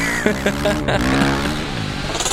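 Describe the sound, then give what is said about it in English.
Honda motorcycle engine revving: a few short, sharp throttle blips, then a longer sustained rev whose pitch wavers and shifts, loud throughout. “It's the freedom you feel riding your Honda motorcycle.”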